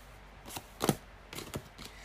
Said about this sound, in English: so your cards are flying out, like literally. I don't know whether you can hear it, but they were flying out.